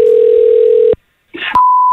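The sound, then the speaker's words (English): A telephone dial tone as a call is placed to a call centre: a steady low tone, then a short pause, a brief burst of noise and a clear, higher steady tone. “Here's my call to Tanner. Here we go.”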